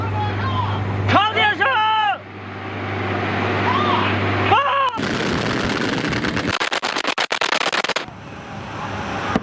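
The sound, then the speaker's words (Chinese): Anti-aircraft guns of an air-defence unit firing at enemy aircraft: a voice talks over a steady low hum, then loud, dense bursts of many rapid shots follow. “高炮分队根据回传数据迅速调整炮口，对进入射击范围敌机进行打击。”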